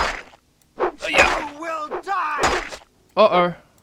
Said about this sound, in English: Oh, they're attacking me with a dagger.